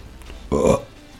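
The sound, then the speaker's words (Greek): A single short burp, a brief throaty rumble lasting about a quarter of a second against faint background noise. “Τώρα που δεύτηκα, θυμήθηκα ότι το προηγούμενο podcast πρέπει να είναι το μοναδικό podcast χωρίς ρέψιμο μέσα”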